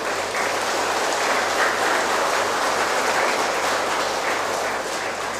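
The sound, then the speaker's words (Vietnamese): An audience claps at a laughter practice session led by a teacher. The applause is dense and continuous, holding an even, moderate level for the whole stretch. “Thầy mời quý vị cười chứ đâu mời vỗ tay đâu.”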